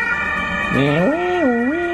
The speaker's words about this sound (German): Krankenwagen. Ja, ich habe das Fenster offen gelassen